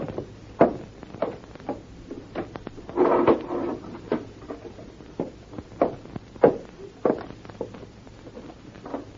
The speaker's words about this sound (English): In that cupboard over there is a first aid box. Would you bring it to me?